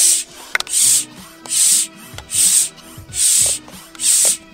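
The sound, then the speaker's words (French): A small hand pump is worked in six even strokes, each one a breathy rush of air, separated by soft clicks and rubbing of the mechanism. “Tu sors ça. Et tu pompes. Voilà. Il y, a un petit système ingénieux et après, t'es en mode. en mode, tu pompes. Comme ça.”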